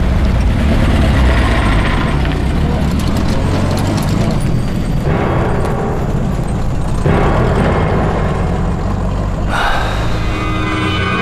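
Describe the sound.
A car drives off with a loud, dense engine rumble that holds for about eleven seconds, its intensity shifting in a few stages. No voices are heard.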